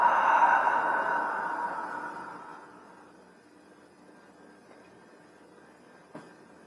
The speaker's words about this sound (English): Going back now to more of a natural breath. Breathing in and out of the nose.